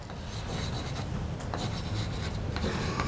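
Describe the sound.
Rasping scratch of writing on a board, a faint continuous rub broken by a few sharper strokes.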